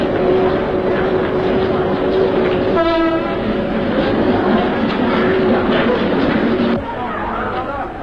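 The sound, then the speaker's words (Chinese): A train pulling into a station: a steady, loud rumble and rolling clatter throughout, with one short horn blast partway through. “大竹车站到了。请您不要忘记自己随身携带的东西。大竹车站到了。”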